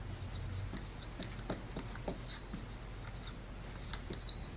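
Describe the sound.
Writing on a board during a sermon: faint, scratchy strokes, short and irregular, with small pauses between them.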